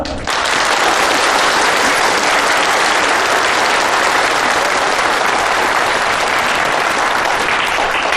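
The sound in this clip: An audience claps loudly to welcome new female workers at a workers' social evening. The dense, continuous applause starts abruptly and stays at a strong, even level, uninterrupted by speech for around eight seconds.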